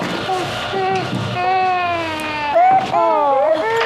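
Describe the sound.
A baby cries in loud, sustained wails whose pitch wavers and bends, continuing with hardly a pause across the whole stretch.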